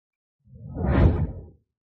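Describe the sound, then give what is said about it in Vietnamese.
A single fast whoosh of a figure flying through the air, swelling to a full peak and fading away over about a second, heard alone. “Âm thanh phá không, thân ảnh Quỷ Lệ nhạt nhòa trong không trung.”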